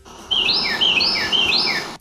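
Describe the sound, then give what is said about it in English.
Carolina Wren song recorded in a backyard: clear, loud, high whistled phrases repeated in quick succession, each a rolling pair of notes, forming a bright, rhythmic chant. “it identified that as the Carolina Wren”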